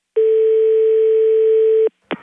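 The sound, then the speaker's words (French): A telephone dial tone sounds after the other party hangs up: a loud, steady, unbroken tone lasting under two seconds, cut off abruptly and followed by a short click. “Oui, j'ai appelé une dame et elle m'a raccroché au nez.”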